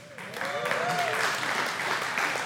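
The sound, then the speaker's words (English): Applause from a church audience during a sermon: dense, steady clapping that holds evenly throughout, with a voice briefly heard over it near the start. “No one clapped during first service, and it was super awkward. So thank you guys for helping me out there.”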